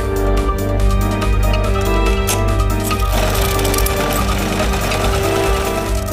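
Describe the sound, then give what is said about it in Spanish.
Sewing machines run with a loud, continuous mechanical whir over a steady hum and fast ticking, and the sound turns denser and rougher partway through. “Venid por aquí, que están las máquinas de coser.”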